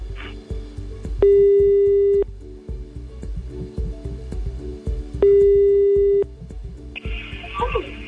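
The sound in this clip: A telephone ringback tone plays while a call is placed to someone for a live radio greeting. Two long, steady beeps of about a second each, spaced a few seconds apart, sound over a busy background.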